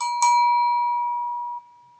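A bright bell chime sound effect, used to mark a comment, strikes twice in quick succession and then rings on as a single clear tone, sustaining and fading on its own.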